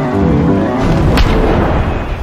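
A booming attack sound effect from a turn-based monster battle video game, played as a skeleton enemy unleashes its move: a dense, rumbling roar throughout with one sharp burst near the middle.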